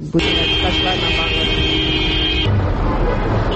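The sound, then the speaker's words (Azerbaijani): Car horn honking in a long line of cars queued along a street: one sustained, steady blast lasting about two seconds that cuts off abruptly, leaving a continuous rumble of traffic. “Küçə boyunca bir-birinin ardınca düzülən maşın kərvanı, aramsız siqnal səsləri, yol polis əməkdaşlarının xəbərdarlıqları.”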